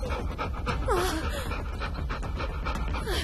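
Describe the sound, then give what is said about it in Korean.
Dogs pant rapidly during a fire, short breathy huffs running over a constant, dense rushing noise that stays loud throughout. “강아지들이 헐떡이는 소리가 들리고”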